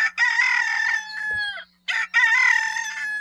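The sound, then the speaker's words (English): Two loud crows from a domestic rooster, each a drawn-out cock-a-doodle-doo with a short break between them, over a faint steady low hum. “And here's the call of the domestic chicken.”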